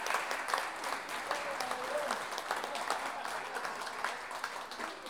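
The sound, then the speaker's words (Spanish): Sustained applause from an audience for two folk improvising singers at a payador day celebration and national counterpoint duel, a dense, steady clapping roar that holds at an even level throughout. “Un aplauso grande para estos dos payadores que han iniciado esta tarde de tan hermosa.”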